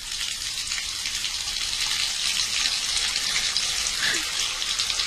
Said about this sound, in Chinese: 我现在就去洗澡